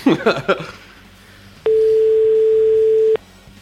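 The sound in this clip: Ringback tone of an outgoing telephone call: one long, steady, mid-pitched tone lasting about a second and a half, following a brief voice at the start.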